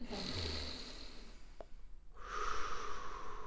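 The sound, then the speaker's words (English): A deep breath is taken during a guided breathing and affirmation exercise. It is a soft, airy, drawn-out rush of air that stays fairly quiet throughout, with no talk over it. “let's take a deep breath with me”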